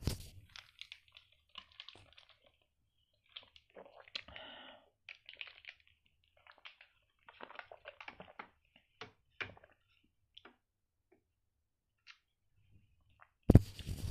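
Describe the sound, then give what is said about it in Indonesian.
Plastic crinkling and crunching as someone bites open a mineral water cup with their teeth: many faint, irregular clicks and crackles spread throughout, ending in a louder burst. “buka mineral juga bisa pakai gigi malah”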